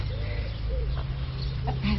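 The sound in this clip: Hens clucking faintly, a few soft, low calls over a steady low hum.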